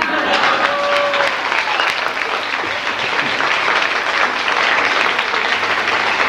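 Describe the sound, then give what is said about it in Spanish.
Sustained applause from an audience after a told story, a dense, steady wash of many hands clapping that holds at an even loudness for the whole stretch, with no talking over it. “estos aplausos no eran para nosotros”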